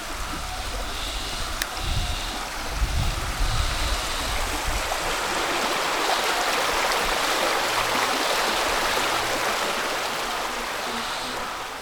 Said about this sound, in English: it's amazing how many different sounds you can hear just within one little stretch of river.